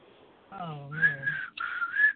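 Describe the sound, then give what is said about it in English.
Someone whistles a few sustained, high notes with brief breaks between them, just after a short voiced sound. “I can still whistle, though. You hear me? Yeah. Oh, I see. I can whistle.”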